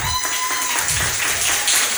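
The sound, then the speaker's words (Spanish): Applause for a fourth-place winner at a ranking ceremony: a dense, steady clatter of many hands clapping, fairly loud and continuous for about two seconds. “El cuarto puesto para Sandra Jaramillo. Un aplauso.”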